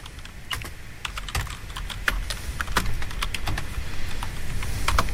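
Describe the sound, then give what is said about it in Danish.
Rapid typing on a computer keyboard as a name is entered, a steady stream of crisp clicks with uneven rhythm and no talk. “Jeg prøver lige at skrive Birte Kjær.”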